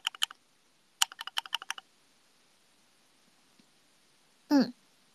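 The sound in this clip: Keystrokes on a thocky mechanical keyboard arrive in two short, rapid bursts of crisp clacks, the second burst longer, followed by a quiet pause.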